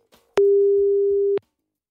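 Telephone dial tone as a call is placed: one steady, pure mid-pitched tone lasting about a second, with a sharp click at its start and end and a few faint low thumps beneath.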